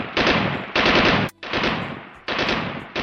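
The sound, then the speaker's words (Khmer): Heavy gunfire from small and large guns erupts at midnight behind a house in a village, loud rattling volleys in a few long bursts separated by brief gaps. “ប្រហែលជាពាក់កណ្ដាលអាធ្រាត្រស្រាប់តែស្នូកំភ្លើងតូចធំលាន់រំដំផ្ទួនផ្ទួននៅក្រោយផ្ទះយើង”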